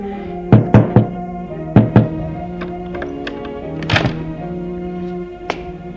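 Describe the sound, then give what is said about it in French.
Knocking on a concierge's apartment door: a quick group of three firm, hollow knocks, a short pause, then two more, followed by a few softer scattered thuds. “Il va frapper chez elle.”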